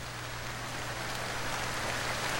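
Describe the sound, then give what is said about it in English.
Light rain falls through the night as a steady, soft, even hiss with no clear individual drops, alone and unchanging in level for the whole stretch. “As he slept, a light rain began to fall.”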